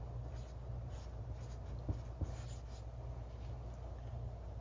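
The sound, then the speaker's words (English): Faint writing on a board, with soft scratching strokes and a couple of light taps over a steady low hum. “Okay, so I'm gonna write here, past.”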